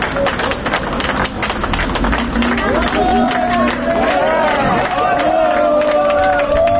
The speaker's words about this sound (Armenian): Դրսում հավաքված քաղաքացիները հեգնական ծափողություններով արձագանքեցին։